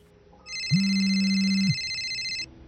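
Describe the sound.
A phone rings with an incoming call: a single continuous electronic ringtone, lasting about two seconds, with a steady low tone and bright, buzzy high overtones. It starts and stops cleanly, and no one talks over it.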